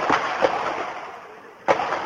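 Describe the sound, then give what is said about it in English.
Handgun shots ring out in a street just after midnight, heard as a few sharp, cracking bangs spaced irregularly apart over a quiet background. The shots are loud and punchy, with one fired after a longer pause. “I saw a tall man shooting down the street, shooting a handgun.”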